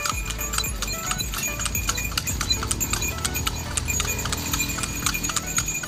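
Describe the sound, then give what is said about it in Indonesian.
Hooves clip-clop steadily as a horse pulls a delman carriage along Malioboro, a quick, continuous run of many hard, bright strikes with no voices. “kita naik delman dulu.”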